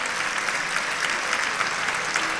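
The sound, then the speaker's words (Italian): An audience applauds at a stage event after speakers have told their personal life stories. Many hands clap densely and evenly, a steady rush of sound with no pause across the whole stretch. “Io vi ricordo, un applauso direi che è super meritato.”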